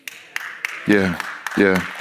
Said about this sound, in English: That was a weak clap, because some of you all might still be on the fence.